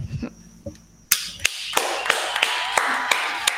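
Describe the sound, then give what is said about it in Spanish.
Sparse applause from a scattered audience in a dark patio under the trees after a singer's performance: a few separate, crisp hand claps spaced out at uneven intervals over a quiet background. “Acá, desde las lejanías, desde las oscuridades de mi patio, abajo de los árboles, está el público desparramado aplaudiendo a Sol Medina.”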